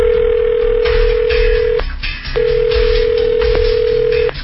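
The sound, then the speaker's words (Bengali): Telephone ringing tone while calling a driver: a long steady tone, a brief break, then a second long tone, over a constant low rumbling background. “না driver Zahid, জাহিদকে phone দিতে হবে।”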